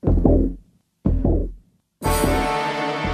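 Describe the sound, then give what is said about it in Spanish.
A heartbeat as a sound effect: two slow, deep, booming thuds about a second apart, each fading out, then a sustained bright tonal sound takes over. “O sí, es el latido de la vida. Es el latido de Gaia.”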